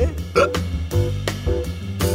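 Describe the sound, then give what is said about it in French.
Hiccups from a person who has the hiccups: several short, sharp, voiced gulps at irregular intervals, fairly loud, with no talk. “excusez-moi, mais j'ai le hoquet.”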